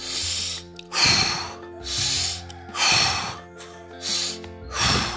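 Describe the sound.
Deep breathing during a guided meditation: a slow series of airy, hissing inhales and exhales, each swelling and fading, over soft, sustained background tones.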